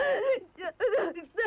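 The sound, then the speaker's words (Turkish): A child cries in short whimpering, sobbing bursts, voiced and wavering in pitch, broken by brief gaps. “Geçti, ağlama artık, hadi! Ağlama yavrum, geçti!”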